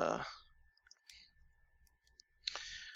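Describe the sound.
Soft computer mouse clicks sound while opening a game link, a few faint, crisp taps spread across the moment over a steady thin tone, with brief breathy bursts at the start and near the end.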